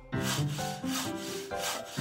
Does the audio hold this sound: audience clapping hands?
no